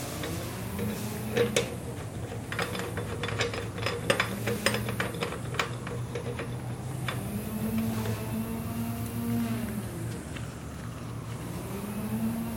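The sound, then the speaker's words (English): Irregular mechanical clicks and ratchet-like ticking as a bicycle wheel is tightened into position during a hub overhaul, with a steady low droning hum running underneath throughout. “the wheel is in position, ready to tighten down. Make sure it stays straight.”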